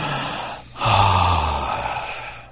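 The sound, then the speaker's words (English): A person takes a deep breath, a loud airy rush that starts briefly, pauses, then swells into a long, steady breath with a low rasp that gradually fades. “when you take a deep breath in, you go,”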